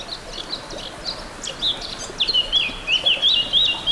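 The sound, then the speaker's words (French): Birds chirp and trill in a meadow on a humid, grey spring day, with bright high calls growing busier over a soft, steady background hiss. “Bienvenue pour cette carte postale sonore. Une prairie.”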